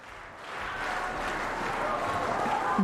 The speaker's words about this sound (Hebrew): ועולה שוב לבמה. שוב לבמה, להשתחוות, הקהל מריע.